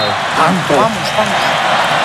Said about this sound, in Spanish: ¡Que grita el público! España grita la grada de New Jersey.